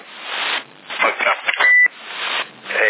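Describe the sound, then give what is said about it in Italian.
A short electronic beep sounds over a CB radio. The tone is steady and high, and it rises out of hissy, band-limited radio audio with voices talking around it. “Si sente il bip? Il bip si sente?”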